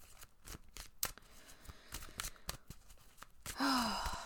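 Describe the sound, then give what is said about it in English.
Tarot cards are shuffled before a card is pulled, giving a quiet, irregular run of crisp riffling flicks and soft slaps, followed by a brief breathy, voiced sigh. “And let me pull a card for you.”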